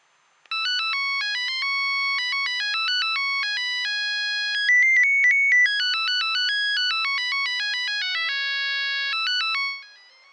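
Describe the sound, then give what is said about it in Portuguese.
A cell phone ringtone playing the Pac-Man video game melody, bright synthesized beeping notes in a quick, bouncy pattern, loud and alone for about nine seconds before stopping. “Agora eu fiquei mais feliz porque eu gosto tanto de Pac-Man que até coloquei a musiquinha dele no meu celular.”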